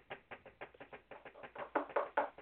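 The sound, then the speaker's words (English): Quiet knocking on a hard surface comes as a quick, even run of many light taps, growing slightly louder toward the end, with no voices. “Knock.”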